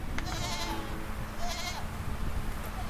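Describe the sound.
Farm animals bleating in a milking barn on a cheese-making farm: two prominent nasal bleats about a second apart over steady low background noise.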